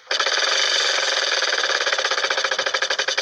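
A wheel being spun gives off a dense, loud stream of rapid clicks that gradually space out as it slows, with no voices over it.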